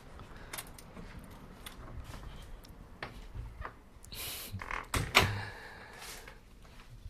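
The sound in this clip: A front door shuts and locks after a couple returns home from a neighborhood walk. A few soft knocks and clicks build to a sharper thud and latch clatter near the end, over faint background noise.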